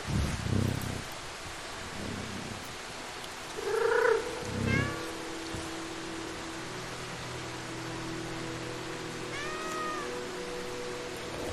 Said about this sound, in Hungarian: Most itt a cicapajtásokkal lényegében egy tutoriál része ez, ahol megtanuljuk, hogy milyen alapképességei vannak a cicánknak.